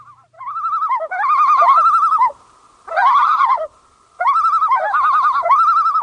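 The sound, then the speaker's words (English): Common loon calling: loud, wavering tremolo cries that rise and fall rapidly, coming in three long bursts separated by short pauses. “This is the call of the common loon. Naturalist John Muir described the call of the loon as one of the wildest and most striking of all the wilderness sounds, a strange, sad, mournful, unearthly cry, half laughing, half wailing.”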